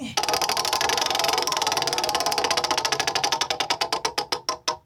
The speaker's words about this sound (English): will you please spin the first wheel for us?